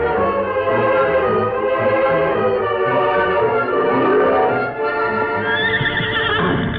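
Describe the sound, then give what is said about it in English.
Horses with riders approaching, a loud, sustained whinny whose pitch rises near the end, with hoofbeats clip-clopping underneath. “Sun's down, and Tonto and Kit aren't here. I wonder what... Oh, here they come. I know it's Tonto riding alone.”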